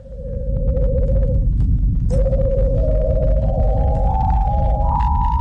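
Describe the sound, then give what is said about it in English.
Venus's natural low-frequency radio emission, picked up by NASA's Parker Solar Probe in Venus's upper atmosphere in July 2020 and converted to audible sound: an eerie steady tone stepping gradually higher over a constant deep rumble. “This is the sound of Venus. NASA's Parker Solar Probe flew through Venus's upper atmosphere in July of 2020, and it discovered a natural low-frequency radio emission that NASA scientists were able to convert into a sonic frequency humans can hear.”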